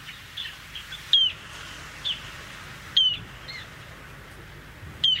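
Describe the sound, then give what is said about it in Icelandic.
Piercing peeps of a bird call: short, high, sharp notes recurring about every second to two seconds over a faint steady background, with no talk. “Hljóðið í þessum fugli er svona.”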